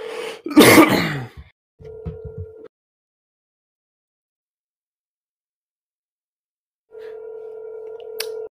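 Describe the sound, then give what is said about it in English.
A phone call ringing out on speakerphone: after a cough, a steady, mid-pitched ring tone sounds, several seconds of silence follow, then a second ring tone begins. “we're gonna see if anyone will pick up. Okay, it's dialing. It's on speaker.”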